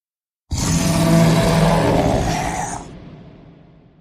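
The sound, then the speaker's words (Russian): An angry, pained roar from a wounded beast: one long, loud, rough bellow that starts abruptly, holds for about two seconds, then fades away. “Полный злости и боли рев огласил округу.”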